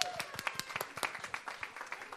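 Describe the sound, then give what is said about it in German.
Audience applause at the end of a live event: fairly quiet clapping that is steady and evenly paced, like a small group clapping together. “Wir geben mal einen großen Applaus an das Publikum. Bitte großen Applaus an das Publikum.”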